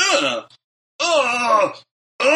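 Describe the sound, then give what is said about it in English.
A voice imitates a groan of dread with long, drawn-out moaning tones: two full groans separated by silence and the start of a third. “like kind of groaning because I knew what was happening because I've seen the movie before”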